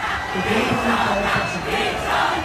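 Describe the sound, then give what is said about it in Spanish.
Concert crowd singing along in chorus at Festival Diversity in Valencia's Ciudad de las Artes y las Ciencias, a dense, steady wash of many voices that swells and eases in loose waves without a break. “Ahí está el coro del público que la sigue.”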